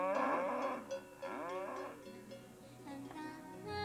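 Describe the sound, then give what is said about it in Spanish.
Calves mooing, a large herd of fat young cattle running about: overlapping drawn-out moos in several voices, continuous and fairly faint. “corrieron hacia ellos los 100 terneros. Eran tan gordos como si hubiesen sido modelados con arcilla y, con su piel brillante, corrían de aquí para allá mugiendo.”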